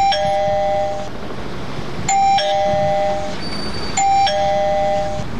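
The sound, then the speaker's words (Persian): Electronic doorbell at a house door rings three times, each ring a bright two-note chime, evenly spaced and loud over a low steady background rumble. “صبر کو زیاد زنگ نزن که پالتیش خلاص میشه”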